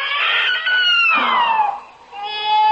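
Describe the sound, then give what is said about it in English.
A baby crying in a barn: drawn-out harmonic wails, loud and alone, with one cry sliding downward in pitch before a short pause and a final rising wail. “Oh, I hear it. Hurry. There's someone in that barn. It's a welcome sound with a crying baby.”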